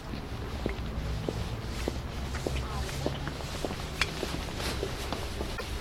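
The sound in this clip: Footsteps climbing up to a railway platform in Bakhmut, a steady run of soft, faint steps with light scuffs over low background noise.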